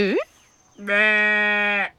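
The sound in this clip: Sheep bleating: a short call that climbs in pitch, then a pause and a longer, steady, strongly voiced bleat that holds for about a second before stopping.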